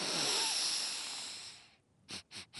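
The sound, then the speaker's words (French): A voice playing Monsieur Lapin, the rabbit in a children's story, sniffs loudly: one long, noisy inhale that fades away, then after a brief pause three quick, sharp sniffs. “« C'est toi, Monsieur Lapin, qui renifle comme ça ? Ça ne va pas ?”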